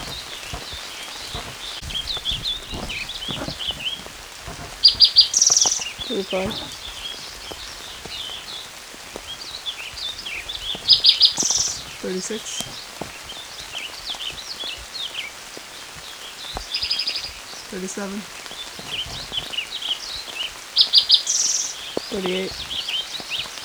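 Bird song recurs at intervals as a few short, high, bright phrases, each standing out over a steady hissing background like light rain.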